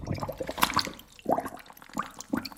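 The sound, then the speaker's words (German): Water runs into a plugged bathroom sink in faint, irregular splashing and gurgling bursts separated by brief quieter gaps. “Wasser ins Waschbecken. Ein Mini-Swimmingpool.”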